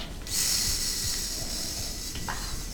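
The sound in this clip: A voice imitating the hiss of a small snake: one long, steady, breathy hiss held for nearly two seconds, then tapering away.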